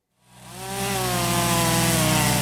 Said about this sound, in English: There's always chainsaws once a storm like Idalia moves out